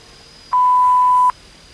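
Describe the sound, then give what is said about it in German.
A single answering-machine beep rings out alone before a message is left: a steady, mid-pitched pure tone lasting just under a second, clean and loud, with nothing else around it. “Wenn Sie mir eine Nachricht hinterlassen wollen, sprechen Sie bitte nach dem Signalton.”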